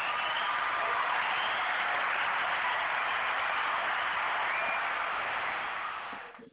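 Applause greeting a co-host joining a Sunday show, a steady, dense wash of clapping through a thin, narrow-band line that holds level and then fades away at the end.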